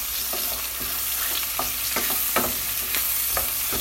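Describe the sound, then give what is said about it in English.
Garlic cloves are stirred into a frying pan where zucchini is already frying. A steady sizzling hiss runs throughout, broken by several scraping stir strokes at an uneven rhythm. “And I ended up using like four or five of those cloves. So I'm just putting them, just mixing that right in there.”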